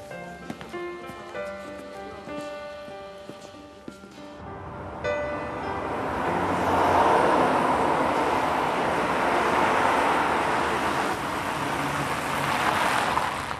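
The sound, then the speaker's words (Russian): A car pulls up to a hospital after a short musical passage ends. Broad engine and tyre rumble swells and then holds steady until the end. “Машина подъезжает к больнице.”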